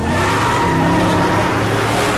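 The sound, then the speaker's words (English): Cars race through city traffic in a chase, including a sniper's car: a sustained, loud engine roar that holds steady. “The chase moves out into the city traffic and now includes the Waterloo sniper in his car.”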